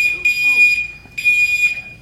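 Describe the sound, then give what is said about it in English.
Fire alarm going off in two long, shrill, high-pitched bursts separated by a short gap, loud and piercing, with faint talk beneath. “someone got a fire alarm going on.”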